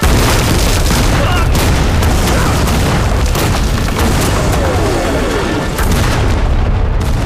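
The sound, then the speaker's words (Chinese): Heavy artillery shell explosions boom in a loud, continuous barrage of deep, rumbling blasts, with many impacts that overlap without a pause. “咱们的炮弹发威了， 炸死你这个王八蛋！”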